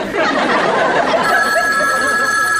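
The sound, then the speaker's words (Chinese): A telephone bell begins ringing partway through on a snowy morning at home, a sustained bright metallic ring over a rushing, murmuring background. “电话铃7:59准时响了。”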